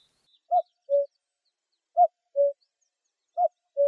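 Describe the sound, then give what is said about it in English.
Cuckoo calls sound as three clear two-note phrases, each a higher note dropping to a lower one, evenly spaced with silence between them. “This week, three pieces with the sound of the cuckoo.”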